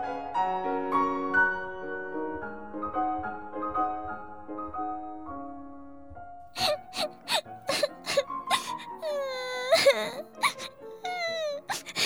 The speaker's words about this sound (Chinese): 这里怎么有个女生在哭啊？